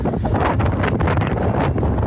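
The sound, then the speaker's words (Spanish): Strong wind roars across a phone microphone at the pools area of Chañaral, where sand and dust are lifted into the air. The wind makes a dense, steady, loud rush with continuous buffeting and no voices. “Y ahí se puede escuchar de fondo el viento.”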